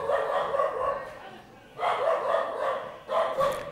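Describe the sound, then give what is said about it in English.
A dog from Oklahoma barks in three loud bursts of rough, mid-pitched yelps, with a short quiet gap between the first and second. “That was a dog from Oklahoma, I think, is what's going on there.”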